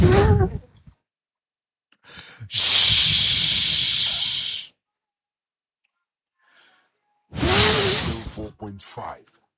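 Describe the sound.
A preacher breathes out forcefully into the microphone: one long, loud, breathy rush of air lasting about two seconds, set between short stretches of his speech.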